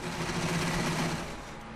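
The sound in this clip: A sewing machine runs steadily with a continuous mechanical whir and a dense, rapid stitching chatter at an even level, with no voices.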